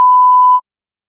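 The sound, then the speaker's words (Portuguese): A voicemail recording beep: one steady, loud pure tone that holds for just over half a second, then cuts off abruptly into silence. “A chamada está sendo encaminhada para a caixa de mensagens e estará sujeita à cobrança após o sinal.”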